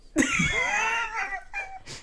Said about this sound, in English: You snorted a deep breath.